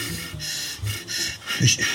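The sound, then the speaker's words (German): Breath is drawn in during a guided breathing exercise. Soft, airy inhalations come and go in a few slow swells, each a gentle rush of air through the nose or mouth. “Einatmen.”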